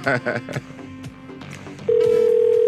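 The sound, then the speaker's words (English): A telephone call being placed: a few short, mixed sounds give way to a loud, steady dial tone that holds at a constant pitch until the end. “Oh, she's gone. Damn it. Damn it. I'm going to call her.”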